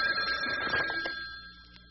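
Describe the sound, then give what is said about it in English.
A telephone ringing in a hobby shop, heard as a single bright metallic ringing burst that gradually fades away into quiet. “Uh-oh, there's my telephone a-ringing.”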